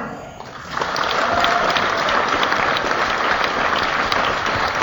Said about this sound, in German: Einen kräftigen Applaus für